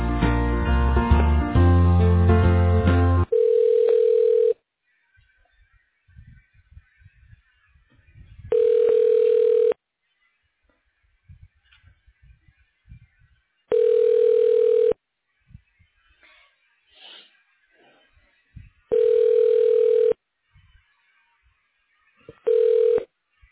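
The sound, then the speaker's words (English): A telephone call being transferred to voicemail: a brief musical passage, then steady ringback tones that pulse about every five seconds, each lasting roughly a second, with near-silent gaps between them. “I'm going to transfer you to her voicemail.”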